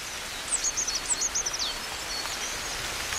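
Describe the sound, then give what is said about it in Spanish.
A coal tit sings in winter: faint, high, thin chirping phrases repeat quickly for about a second over a soft rustling hiss, then fade out. “En pleno invierno, con el frío, un carbonero garrapinos está cantando como anticipándose a la”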